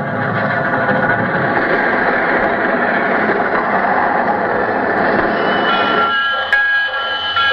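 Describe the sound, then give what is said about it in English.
Sound effect of a train pulling into a railroad station, built from layered recordings: a dense, steady roar of rolling wheels and machinery, with a high squeal of brakes near the end. “Our story begins with our hero's train pulling into the railroad station.”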